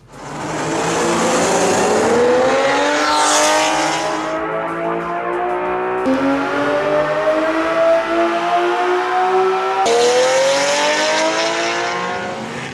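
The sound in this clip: Ferrari Testarossa engine revving hard through a Tubi Sport exhaust, partly recorded in a tunnel: a loud, sustained roar that climbs steadily in pitch in a few long pulls, with abrupt drops between them.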